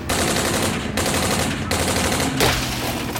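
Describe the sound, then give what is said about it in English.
Rapid gunfire aimed at a vehicle: dense, loud bursts of shots run almost without pause from start to end, with several harsher cracks standing out. “But this wasn't the Autobahn, and the shots were getting way too close.”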